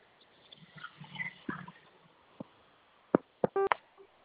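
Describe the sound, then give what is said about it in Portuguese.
A telephone keypad tone sounds from pressing zero after an automated prompt on a phone line: one short, steady electronic beep, preceded by a few faint clicks over a low, noisy line. “Aperte no zero para saber mais.”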